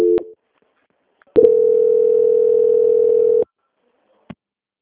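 A telephone line tone plays during a call transfer. A short tone opens, then a steady mid-pitched tone holds for about two seconds after a pause, and a faint click follows near the end.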